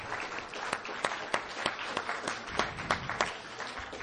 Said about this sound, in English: Let's put our hands together one more time and give another pause for this enlightened comments here today.